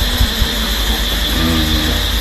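Inside a moving car, a steady low engine and road drone hums continuously, with a faint high whine above it. No talk is heard.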